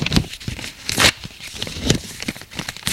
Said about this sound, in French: De fureur, il déchire la lettre.